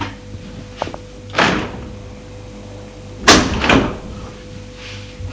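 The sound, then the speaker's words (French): Knocking on a door, heard as a few heavy, resonant thuds with pauses between them: one near the start and a closer pair later, over a low steady hum. “Lorsque la montre marque 11h, on a frappé à la porte.”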